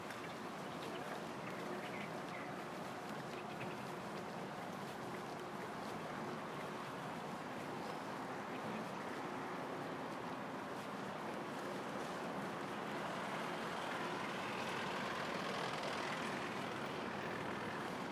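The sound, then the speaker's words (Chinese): A garbage truck passes along Miaojiang Road in Shanghai's Nanshi district: a steady, broad roar of engine and street traffic that swells slightly toward the end, with no voices. “刚刚开过去一部垃圾车子。”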